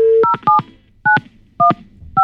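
Telephone dialing tones on a phone line: a brief steady tone, then a few short two-tone keypad beeps at uneven intervals, loud and clear with no voices.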